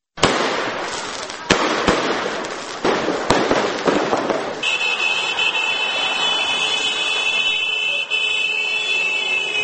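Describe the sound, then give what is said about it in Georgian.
Fireworks set off in a town celebrating a local athlete's Olympic silver medal: a few sharp, loud bursts over crackling rumble, then a steady hissing roar carrying a sustained high whistling tone. “მეორე დღეა გორში ადგილობრივი სპორტსმენების წარმატებებს ფეიერვერკებით და მანქანების მსვლელობით აღნიშნავენ.”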